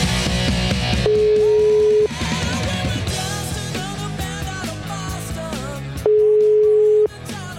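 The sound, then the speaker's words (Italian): After a number is dialled, a telephone ringing tone sounds twice: steady one-second tones about four seconds apart, played over loud music. “Vediamo se risponde, sentiamo. Ma che mi fate partire la musica? Dai con sto numero, vai.”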